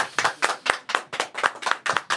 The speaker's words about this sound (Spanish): Un aplauso para Marcos.